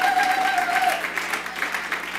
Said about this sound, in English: Hey, let's give him a round of applause.